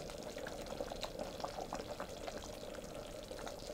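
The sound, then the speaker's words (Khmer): Coconut cream pours into a taro dessert, a steady, continuous liquid rush with light bubbling texture that holds at an even level throughout, with no voices. “ចាំដល់ពេលនេះនាងខ្ញុំនឹងដាក់ខ្ទិះដើមចូលបន្តិច”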